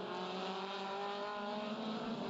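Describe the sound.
Racing cars stream through turn one and head up a hill late in a motor race, making a steady, dense engine drone that stays loud and even throughout, with no talk.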